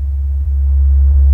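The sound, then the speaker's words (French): Low, steady engine rumble from a car pulling up and parking outside a hospital, a continuous deep drone that holds level and grows slightly louder toward the end. “à temps pour voir la voiture de ma mère se garer devant le corps de ma sœur.”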